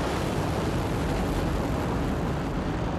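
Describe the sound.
Rocket engine ignition and liftoff of a domestically developed launch vehicle, heard as a dense, loud roar that holds steady without a break.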